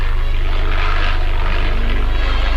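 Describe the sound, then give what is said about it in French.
Propeller-engine drone of an early Voisin biplane flying at a pioneering aviation meet: a loud, steady buzzing roar with a rapid low throbbing pulse throughout, and no voices. “La brillante démonstration de Louis Pollan sur biplan voisin.”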